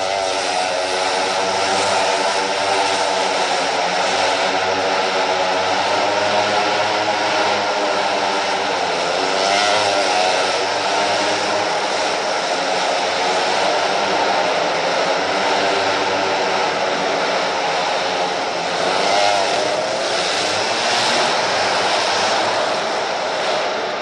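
A go-kart engine runs around a shop, giving a loud, steady droning roar with a buzzy, harmonic-rich tone that holds throughout without pause.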